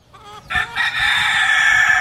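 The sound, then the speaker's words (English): A rooster crows in a northern Philadelphia backyard where chickens roam freely. It is a loud, sustained, harmonic call that starts about half a second in and holds steadily to the end, after a few short choppy notes. “Chickens roam freely around him.”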